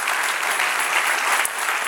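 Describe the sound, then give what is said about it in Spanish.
Steady applause from a church audience, dense and unbroken for the whole clip with no pauses or single claps standing out. “Dale otro aplauso al Señor.”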